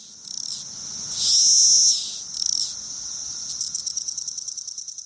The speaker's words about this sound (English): most of the cicadas are likely to start popping up within days. And in a week or so, the sounds they make will be easier to hear and hard to ignore.